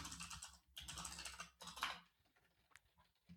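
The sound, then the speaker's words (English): Typing on a computer keyboard as a search query is entered: quick bursts of clicking keystrokes, then sparser, quieter taps toward the end. “I want to do a search where I see this. Type in what is schema markup?”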